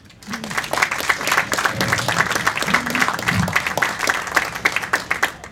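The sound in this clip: Audience applause greets a guest moderator at a talk event, a brisk, even patter of many hands clapping throughout, with a few faint voices briefly audible beneath it.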